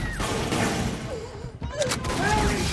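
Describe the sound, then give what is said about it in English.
Gunfire as attackers open fire on a woman in a hospital ward in a film scene: a loud, dense, continuous clatter with no clear breaks, mixed with other film sound. “As Mary stands up, they open fire, gunning her down”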